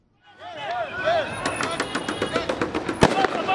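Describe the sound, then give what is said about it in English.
Police fire tear gas at protesters retreating outside the electoral commission in Nairobi, Kenya: many irregular sharp cracks and pops, with one heavy bang near the end, over a constant din of crowd voices. “The sounds of police firing tear gas and protesters in retreat filled the air outside Kenya's Electoral Commission Tuesday”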